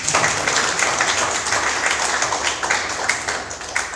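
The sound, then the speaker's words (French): Audience applause and ovation at a book presentation with the editor and a reader: dense, steady clapping from many hands that holds evenly for the whole stretch. “Si je mérite également des ovations, n'hésitez pas.”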